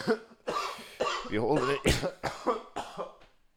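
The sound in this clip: Coughing after holding in a lungful of smoke: several harsh, rough bursts in a row, mixed with voiced, throaty sounds between them, fairly loud throughout.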